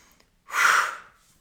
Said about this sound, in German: Also atmet jetzt tief ein und dann wirklich bewusst ausatmen.